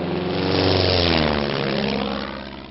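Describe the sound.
Propeller airplane in flight, its engine giving a steady, loud droning roar with a low humming tone underneath, holding level for most of the stretch before easing off slightly at the end.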